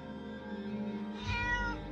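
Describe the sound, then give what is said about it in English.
A pet cat gives a single short meow that swells briefly over a soft, steady background hum. The call is fairly quiet and no one talks. “Don't mind my cat”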